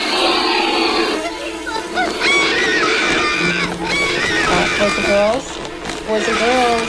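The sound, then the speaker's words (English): Black vulture (Coragyps atratus) calls: a dense, unbroken stretch of harsh hissing, grunting and honking squeals, with short rising and falling tones scattered throughout and loud from start to finish. “the scientific name of this week's Talkin' Birds featured feathered friend is Corygipsa trotus, and he sounds like this.”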